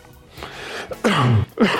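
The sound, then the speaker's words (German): A person coughing: a few rough, throaty coughing bursts that sound close to throat clearing, loud and separated by brief gaps. “Entschuldigung, dass ich so viel hust.”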